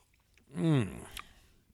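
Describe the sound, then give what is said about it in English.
Old Forester Birthday Bourbon sipped from a glass makes a single brief, soft slurping sound with a slight voiced tone, followed by a faint click. “Now, let me take another sip”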